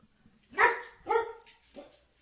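A female dog barks three times, short and sharp, evenly spaced across about a second and a half, with the last bark softer than the first two.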